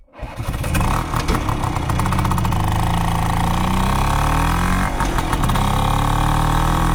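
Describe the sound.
Classic scooter engines rumbling at a large scooter gathering in Derby. One fires up at the start and settles into a loud, steady two-stroke-style drone with wavering pitch, and a sharper revving burst comes near the end.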